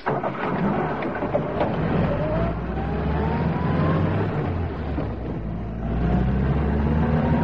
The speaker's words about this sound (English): I'll drive round the corner.